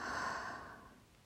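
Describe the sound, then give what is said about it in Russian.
A deep exhale through the mouth, one long airy breath that starts strong and gradually fades away, heard alone. “Глубокий вдох, глубокий выдох ртом.”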